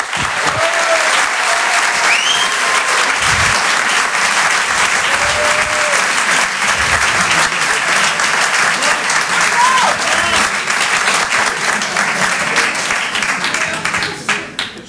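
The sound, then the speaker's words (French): An audience applauds a performer who has just been introduced: loud, steady, sustained clapping with a few whistles rising above it, easing slightly at the very end. “Je vous demande de l'encourager. Faites du bruit, s'il vous plaît, pour Julien Santini.”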